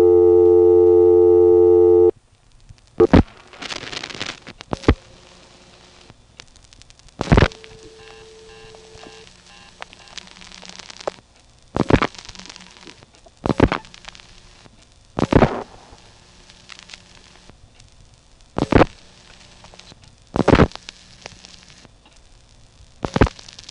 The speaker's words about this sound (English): But we can use it to ring this payphone.